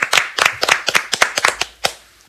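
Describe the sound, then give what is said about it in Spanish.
Applause from a small group after a call to clap: many sharp, separate hand claps in a loose, uneven rhythm, fairly loud, ending with one final isolated clap. “Un aplauso para Manuela Paz.”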